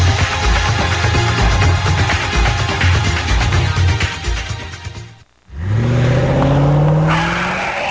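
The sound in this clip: Car tires skid and screech over a loud roaring engine, which drops almost to silence for a moment. The engine then revs up again with a rising whine.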